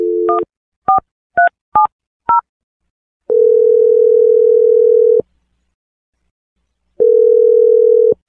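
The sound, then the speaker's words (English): A telephone being dialed: a quick series of short keypad tones, then two long, steady, mid-pitched ringing tones separated by silence. No voices are heard. “Okay, I'm dialing the number right now.”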